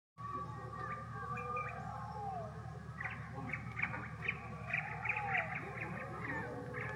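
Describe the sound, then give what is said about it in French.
Birds chirping and twittering amid city sounds, with many quick, light tweets and short warbling calls over a steady low rumble, faint throughout. “des sons de la ville s'entremêlaient au gazouillis des oiseaux”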